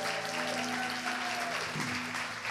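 A church audience applauds as a pastor is welcomed to the pulpit, with dense, steady clapping that holds at an even level throughout and a faint sustained tone underneath.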